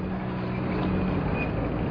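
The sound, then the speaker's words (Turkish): Busy street traffic in Istanbul, a steady, loud rumble of vehicle engines with a low drone and faint higher tones, with no single distinct pass-by standing out and no talk. “İyi de bu trafikte karşıya nasıl geçeceğiz efendim? Baksanıza, arabalar vızır vızır geçiyor.”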